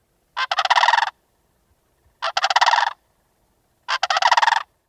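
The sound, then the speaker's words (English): Sandhill Crane calls ring out as three separate rattling, staccato bursts, each about a second long with a rolling, pulsing rhythm, evenly spaced with silence between them. “The call of the Sandhill Crane is especially cool, sort of a rooster crossed with a playing card in the spokes of your bike, if any kids do that anymore. Phil, hit us with a crane call,”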